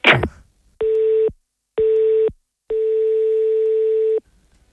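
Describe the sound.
Telephone call tone on an unanswered line: a short burst of noise, then three steady single-pitch beeps, two short ones followed by a longer one, alone with no voices.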